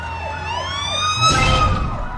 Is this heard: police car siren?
yes

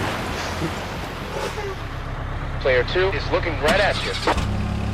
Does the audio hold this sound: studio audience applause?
no

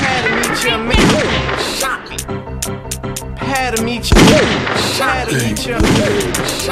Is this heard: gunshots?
yes

